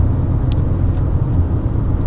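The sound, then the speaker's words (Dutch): Steady low road and engine rumble heard from inside a moving car, a constant dense drone with no talking and only faint scattered higher ticks above it. “podcastaflevering opgenomen in de wagen”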